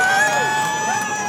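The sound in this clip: A crowd at a 39th birthday party cheers and shouts, with children's voices in the mix. The loud, steady roar carries high, sustained whistling tones throughout.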